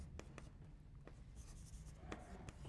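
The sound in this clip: Handwriting, faint scratchy strokes of a pen in short, irregular bursts over low background hum.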